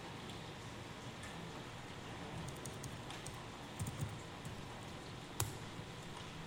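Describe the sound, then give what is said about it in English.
Faint keyboard typing as someone enters network configuration commands on a computer, a few sparse clicks rising above a steady low hiss. “I'm going to type them.”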